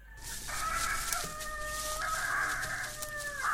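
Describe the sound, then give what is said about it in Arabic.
A hen clucks and calls in long, drawn-out tones, loud and steady with no other sounds over it. “بينما عادت الدجاجة إلى جانب صديقتها بطة لترتاح قليلا.”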